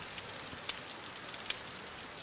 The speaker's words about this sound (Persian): اگه این بارون بند بیاد